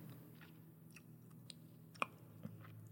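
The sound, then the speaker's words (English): Someone chewing a big piece of Hubba Bubba bubble gum: faint, soft wet smacks and clicks at an irregular pace, with one sharper snap standing out, and no talk. “I swallowed that big ass piece of gum. Of Hubba Bubba. I always swallow gum though. That gum is hella big.”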